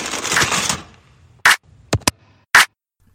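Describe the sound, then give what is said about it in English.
Aluminum foil is pulled from a roll and torn, giving four short, sharp crackling bursts, two of them close together, after a brief stretch of talk. “Let me get you some aluminum foil.”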